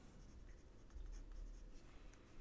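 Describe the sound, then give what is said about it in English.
Chalk scratches across a chalkboard as a statement is written out slowly by hand: soft, continuous gritty strokes rising and falling in short runs, faint and alone without talk. “When you write on a board by hand, just as I'm kind of slowing this down, actually, we could run a little experiment here. I'm just going to rewrite this statement here.”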